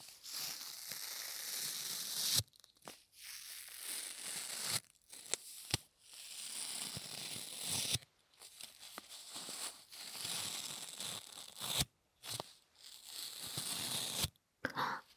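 Packing tape is pressed down and peeled off close to the ear, producing crackly, sticky tearing rips. Several long peels are separated by brief quiet gaps and sharp snaps.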